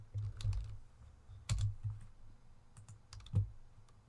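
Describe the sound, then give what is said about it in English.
Typing on a computer keyboard: quiet, irregular bursts of quick clacking keystrokes separated by short pauses. “If I can type.”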